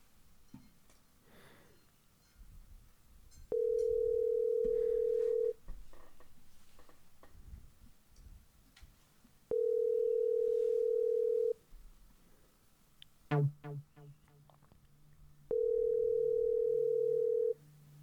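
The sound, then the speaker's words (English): A telephone line tone sounds while connecting to a caller: three long, steady, evenly pitched beeps, each about two seconds, separated by pauses over faint background noise. “Let's connect with our first caller.”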